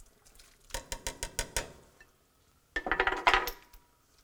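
A spoon clinks against a pot while stirring clam chowder with cream, canned clams, potatoes and dry thyme. About six sharp clinks come in an even rhythm, then a pause, then a quicker, denser flurry of scraping clinks.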